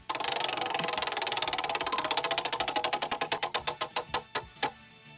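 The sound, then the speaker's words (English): A prize wheel spins, its pointer ticking against the pegs in a fast, dense rattle that gradually slows into widely spaced clicks until the wheel comes to rest. “All right, I'm going to spin the wheel. Here we go. Let's see.”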